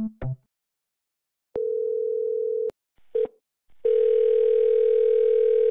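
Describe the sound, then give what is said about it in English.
A telephone line tone after a call is disconnected: a short clatter, then a steady low droning tone, a brief blip, and a continuous tone that holds until the end. “I am receiving dead air, so I'm disconnected.”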